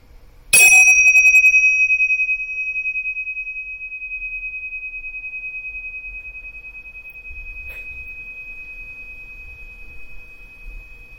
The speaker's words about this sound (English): What I'm going to do is I'm going to ring the bell and follow the sound and the vibration of the sound as far as closely as you can.